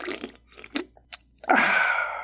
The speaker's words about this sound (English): I'm gonna need some energy drink or something. What's this? Caution tea virus? Jeez, they'll market anything nowadays as an energy drink. Oh well, whatever. Better taste good.